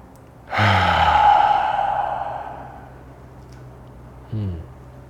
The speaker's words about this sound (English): So just real quick, take a deep breath with me right now.